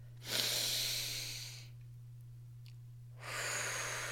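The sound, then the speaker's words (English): A person takes a deep inhale through the nose, a long airy rush that fades, then after a quiet pause begins exhaling through the mouth, all over a steady low hum. “Take a really big inhale through the nose.”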